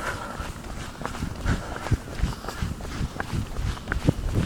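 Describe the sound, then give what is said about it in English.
Running footsteps thud in a quick, steady rhythm of many footfalls, moderately loud and heard alone without voices. “All right, let's run.”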